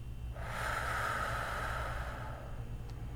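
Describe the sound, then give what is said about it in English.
A slow, deep breath in a guided breathing exercise: one long, airy rush of air lasting about two seconds over a low steady hum, with no talk. “while we breathe together three times. In and out.”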